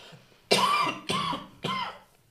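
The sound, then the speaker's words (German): Three harsh, loud coughs after choking on something swallowed the wrong way, each a sudden burst that trails off, spaced about half a second apart with nothing else heard. “Entschuldigung, ich habe mich verschluckt. Man kennt das, man versucht es dann zu unterdrücken und dann wird es nur schlimmer.”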